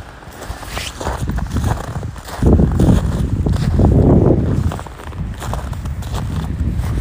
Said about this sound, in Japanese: こんな感じでザクザクですね今日はね。